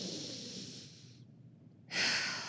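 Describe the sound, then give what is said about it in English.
A deep cleansing breath taken during a guided exercise with a hand on the heart and belly: a long, soft inhale that fades out, a short silent pause, then a fuller, louder exhale, with no talking. “Put a hand on your heart, a hand on your belly, like right above your belly button around your sacral. And just take in like a deep cleansing breath here.”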